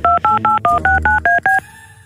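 A telephone number being dialled on touch-tone keys: eight crisp two-tone beeps in an even rhythm, then a thin, faint steady tone.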